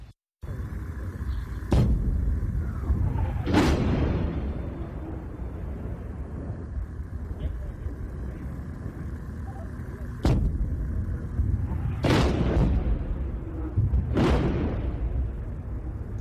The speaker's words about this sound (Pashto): د لبنان او اسرایلو د سرحد پوغدو کې د ډزو اوازونه دي په داسې حال کې چې د سرحد دواړو لورو ته د راکټونو تبادله روانه و او خال خال ډزې کېدې